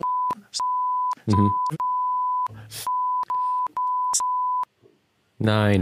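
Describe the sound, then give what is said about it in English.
Steady mid-pitched censor bleeps mask spoken social security number digits. Many long tones alternate with short bursts of speech, and a voice talks again at the end. “I'm going to say mine out loud, but Jeff, bleep every one of these.”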